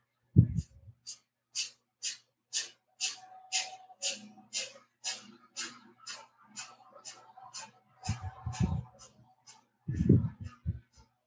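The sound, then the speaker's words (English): Rapid, forceful breathing out through the nose with passive inhales: many short, sharp nasal puffs in an even, quick rhythm. A voice speaks briefly at the start and again near the end. “If you can hear me, I'm breathing out very quickly through my nose, very forcefully through my nose, and my inhale is passive.”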